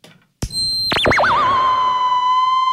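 An electronic instrument played by moving hands near its antennas sounds after a short click, its tone swooping down from a high pitch in wide, wobbling waves before settling into a steady, sustained lower note.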